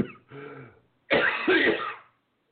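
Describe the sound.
Someone clears their throat and gags: first a short, voiced, throaty rumble, then a louder, harsher rasping burst after a brief pause, fairly faint with no talk.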